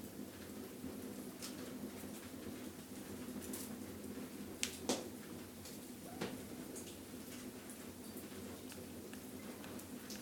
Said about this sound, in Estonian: vahepeal on hakanud minu onnikese ukse taga vihma sadama.